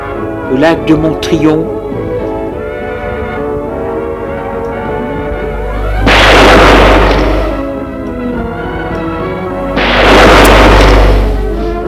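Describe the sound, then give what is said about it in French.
Two gunshots ring out as heavy, rumbling booms about four seconds apart. Each blast swells and fades over a second or so against a continuous background sound. “deux coups de feu.”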